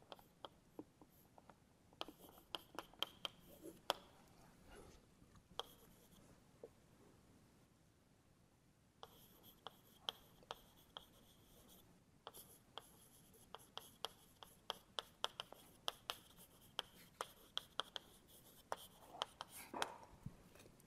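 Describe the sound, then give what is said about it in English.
Writing on a board during a physics lecture: many sharp taps and scratchy strokes come in uneven bursts, with a quiet pause partway through before the writing picks up again. “let me just write down the result”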